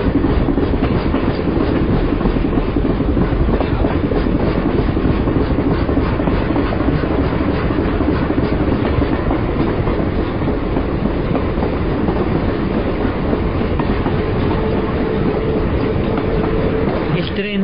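A train running on railroad tracks, heard as a loud, steady rumble with continuous rhythmic clattering of wheels over the rails throughout.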